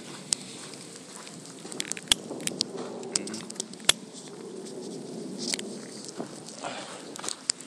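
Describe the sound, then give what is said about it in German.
A smoker lights a cigarette with a lighter, scattered sharp clicks and a couple of stronger flicks over faint rustling and a soft, low hiss. “Entschuldigung, ja, der Raucher muss seine Zigarette anzünden.”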